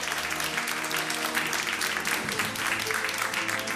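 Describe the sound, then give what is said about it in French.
Live audience applause fills a public event at the Cité du Vin in Bordeaux: dense, steady clapping from a large crowd that stays loud and even for the whole stretch, with no individual voices standing out. “l'émission est en public et vous allez l'entendre, le public qui est venu nombreux à Bordeaux.”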